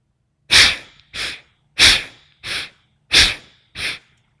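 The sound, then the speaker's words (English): Six short, forceful nasal inhalations drawn through both nostrils during a paced breathing exercise. They come in quick succession and alternate between a stronger and a slightly softer breath, with no talk. “And then we'll begin step three, which is similar to step two, but a little faster and shorter. Inhaling both nostrils, side one.”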